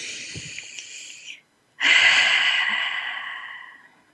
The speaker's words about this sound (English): So as we take a moment to breathe together, so let's take a deep breath.